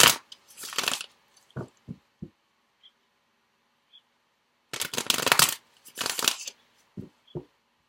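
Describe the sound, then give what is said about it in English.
A deck of tarot cards is shuffled in a few bursts of papery riffling and rustling separated by silence. Two longer, louder shuffles are interspersed with several short, soft taps of cards. “let's just get one more card from the After Tarot. It's kind of a fun deck”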